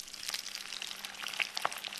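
Poultry fries skin side down in a pan with half a head of garlic, thyme and bay leaf, giving a faint, steady crackling sizzle with scattered small pops throughout.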